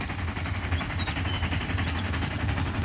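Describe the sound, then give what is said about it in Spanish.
A locomotive rumbles along a railway track pulling two flatcars of materials and a wagon of explosives, a steady, heavy low-pitched drone with a faint rattling layer above it that continues throughout. “La locomotora arrastra dos plataformas de materiales y un vagón de explosivos.”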